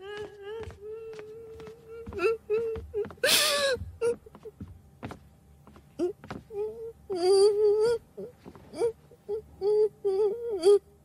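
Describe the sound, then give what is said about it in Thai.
A younger sister cries and wails in repeated wavering, high-pitched bursts, some long and sustained, with sharp clicks and short gasping sounds in between. “น้องสาวพี่ร้องไห้ขนาดนี้ไม่ได้ยินเรื่องไงจะตายอยู่แล้ว”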